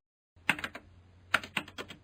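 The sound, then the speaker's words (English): Keystrokes on a portable PC keyboard, a few quick clicky taps in two short bursts with a brief pause between them, fairly quiet and steady. “He started to type the coordinates for Newbridge.”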